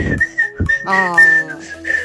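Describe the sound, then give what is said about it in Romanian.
Someone whistles a short, wavering tune made of several quick notes that shift in pitch. The whistling is fairly loud and heard alone, with breathy onsets between the notes. “Nu știu cum am putut să fluier”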